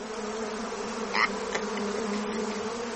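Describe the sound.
Bees buzzing as a sound effect: a steady, continuous droning hum with a low tonal core, holding at an even level throughout with no voices.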